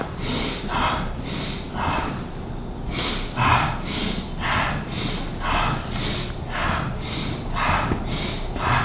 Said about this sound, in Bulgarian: Ти дишай. Дълбоко бастрика.